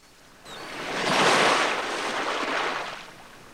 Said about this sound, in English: Waves lap gently onto the beach over a lone corpse lying face down in the sand.